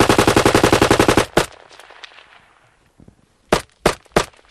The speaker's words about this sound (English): That's a Kalashnikov AK-74 firing on automatic and semi-automatic.